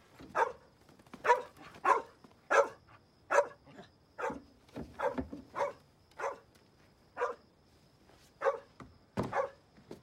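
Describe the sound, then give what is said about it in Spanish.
A dog barks in a rapid, uneven series of many sharp, mid-pitched barks, loud and alone without talk, in a wartime home scene where soldiers complain about the noise. “¡Calle a ese perro ahora! ¿Por qué, señor? Es una molestia. Interrumpe las comunicaciones del ejército.”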